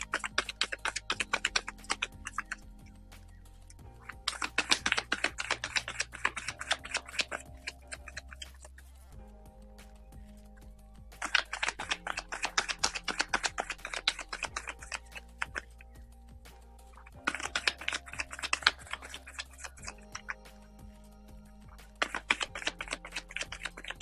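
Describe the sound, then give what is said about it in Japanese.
A deck of cards being shuffled for a card reading: several separate bursts of rapid, crisp clicking and riffling, each lasting a few seconds, with quiet gaps in between. “カードシャッフル出しましょう。お待ちください。”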